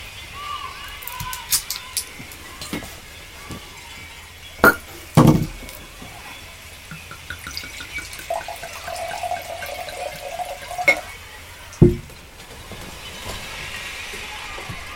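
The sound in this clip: Wine poured into a glass gives faint liquid trickling, scattered with small clicks and a few sharper knocks.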